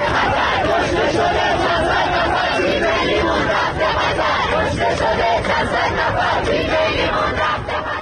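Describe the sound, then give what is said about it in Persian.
Iranian fans chant slogans during Iran's match in Qatar: a loud, continuous mass of many shouting voices, thick with crowd chatter and babble, with no break in the noise. “و ایرانیانی که در قطر حضور دارند و همزمان با بازی تیم ایران شعارهای مرگ بر خامنه ای سر دادند.”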